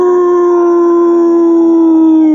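A long, loud wolf-like howl from a creature in a crowded cinema: a sustained steady tone with rich overtones that sinks slightly in pitch toward the end, heard alone.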